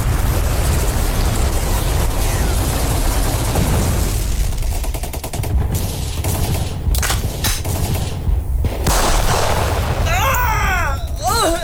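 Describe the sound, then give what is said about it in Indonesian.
Gunfire from soldiers shooting at extremists in a battle involving Dutch forces: a loud, sustained fusillade of rapid shots and machine-gun bursts that runs densely through the whole clip without a break. “tembak itu ekstremis. Ayo tembak.”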